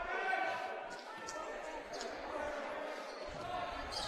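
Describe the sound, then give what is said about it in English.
A basketball is dribbled on a court during a game, with repeated bounces under steady crowd noise and voices. “Lynch dribbling right side.”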